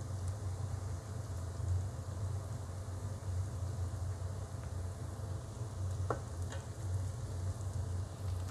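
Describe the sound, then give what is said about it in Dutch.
Onions sizzling gently in a frying pan make a faint, continuous crackle over a low steady hum, with a couple of brief clicks near the end. “De uien staan lekker te prutselen. Die eh, zet ik even iets lager, want anders worden ze bruin”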